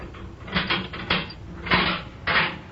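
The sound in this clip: Prison cell door being opened, a few sharp, loud clanks and rattles in separate bursts, with quieter scraping between them.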